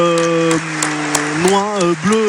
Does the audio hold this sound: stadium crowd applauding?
yes